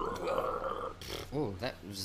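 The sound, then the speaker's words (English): A deliberate guttural burp, low, rough and rasping, lasts about a second before a voice starts talking. “Fucking burp. Make it more guttural.”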